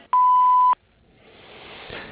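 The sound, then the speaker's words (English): An answering machine beep: a single loud, steady mid-pitched tone lasting about half a second, cutting off sharply and followed by a faint hiss that slowly swells. “Please leave a name, number, and message after the beep, and I'll get back with you.”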